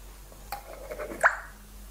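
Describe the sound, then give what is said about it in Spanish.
A splash of olive oil is poured into a vinaigrette of vinegar, a faint, brief pour with a little gurgle that ends in one soft plop. “Si queréis más fuerte, el vinagre de Jerez. Y un chorroncito de aceite de oliva.”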